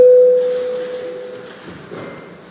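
An electronic voting-mode signal in the Latvian Saeima chamber, a single clean mid-pitched tone held for about a second before it fades into a quiet room murmur.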